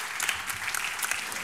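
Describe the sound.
Audience applause, an even, fairly faint patter of many hands clapping that continues without a break and with no voices over it.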